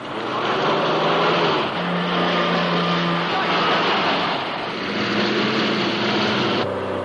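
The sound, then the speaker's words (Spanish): An Aston Martin speeds away during a car chase, pursued by several cars. A dense, loud, continuous engine roar fills the whole stretch, with its pitch shifting as the vehicles race. “entra en el Aston Martin y escapan a toda velocidad, perseguidos por varios coches con sicarios orientales de Goldfinger.”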